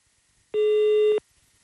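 A telephone tone sounds as a call is dialed: a single steady electronic beep lasting about two-thirds of a second, alone against near silence.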